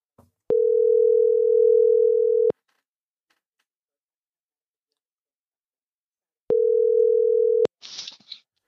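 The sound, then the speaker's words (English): A steady low telephone tone sounds twice as a call is placed: once for about two seconds and again for about one second, with silence between. Brief faint clicks and crackle follow. “All right, so let me dial this in.”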